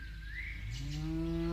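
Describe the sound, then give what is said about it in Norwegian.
A Norwegian lokking herding call used to summon cattle: a long, drawn-out voiced call that holds steady and then rises in pitch. “Dette er lyden av lokking.”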